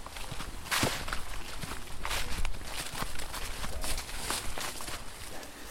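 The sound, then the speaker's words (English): Footsteps crunch and rustle through woodland while people track a pony herd, a steady run of soft, uneven steps with occasional sharper snaps underfoot. “I love the fact that we're just walking through here trying to track where the pony herd is.”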